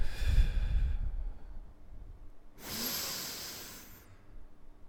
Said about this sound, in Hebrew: ואז התחלתי לנשום.